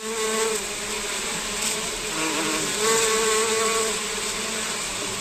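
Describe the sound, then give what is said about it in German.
Honeybees, up to 240,000 of them, buzz around beehives on a green space at the Maximilianeum of the Bavarian state parliament, a dense, steady hum whose tone wavers slightly as individual bees pass, with no voices. “Wie man hört, nicht nur in den Büros im Bayerischen Landtag wird fleißig gearbeitet. Bis zu 240.000 Bienen tummeln sich in den Bienenstöcken auf einer Grünfläche des Maximilianeums.”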